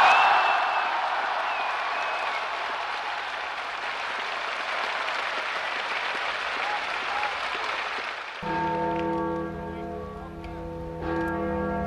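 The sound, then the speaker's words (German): A large crowd applauds after a political speech in West Berlin in 1963. Dense, steady clapping holds for about eight seconds, then gives way to ringing, resonant bell tones. “Sekunden der Stille brandet der Beifall, wie nicht anders zu erwarten war,”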